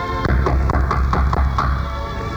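Knocking on a door in a radio drama, a quick, even series of many raps over a steady background hiss, with no voices during the knocks.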